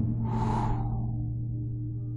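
A person breathing in through the nose and out through the mouth during a breathing exercise: one airy, hissing breath that swells and fades over a steady low hum, with no voice.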